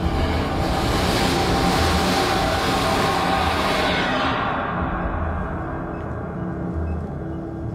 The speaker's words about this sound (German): Während sich meine Augen an die Dunkelheit gewöhnten, spürte ich ein Vibrieren. Ein Zug näherte sich und fegte haarscharf an mir vorbei.